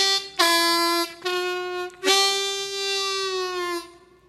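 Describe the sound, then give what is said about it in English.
A harmonica plays a bent blues note: three bright, reedy sustained tones rich in overtones, the last held longest, with no voices. “Most harmonica players don't know either. Well, let's hear it. Bend us a good note.”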